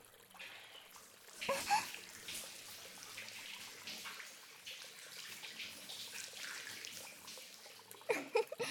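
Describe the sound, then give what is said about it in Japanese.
Water poured over someone to rinse them off in a bath during a trip, with splashing bursts near the start and end and a steady wash of running water between. “ほら、流してあげる。”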